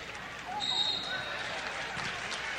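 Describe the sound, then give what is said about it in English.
A basketball is dribbled on a court during a game, giving soft repeated bounces over a steady background of gym noise. “And a double dribble on Trenton trying to break the Chillicothe press.”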